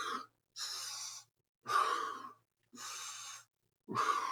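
Heavy breathing in and out during squats in a wall ball workout, five forceful, breathy bursts in a steady rhythm separated by short pauses, with no talking.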